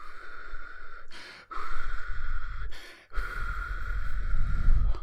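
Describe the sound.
Deep breathing, slow and heavy, in a few long, steady breaths separated by brief pauses, with a constant hum underneath.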